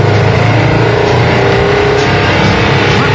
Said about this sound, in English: The key to an air car is to keep everything lightweight so you get the best possible mileage. Let's give it a go. Clutch out. Hey, it's working.